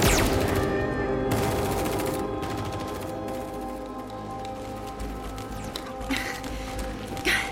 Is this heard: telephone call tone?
no